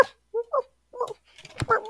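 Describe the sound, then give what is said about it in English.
A human voice imitating a puppy woofing in its sleep: a few short, soft, muffled woofs with quiet gaps between them. “I love the puppy dreams. They're the cutest when they're like woof, woof,”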